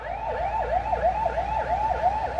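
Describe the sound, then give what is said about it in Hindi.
Ambulance siren wailing in a rapid, repeating yelp, its pitch sweeping up and down about seven times in quick succession, loud and steady. “Ambulance करीब आकर दूर जाती नहीं कि दूर से एक और एम्बुलेंस के करीब आने की आवाज सुनाई देने लग जाती।”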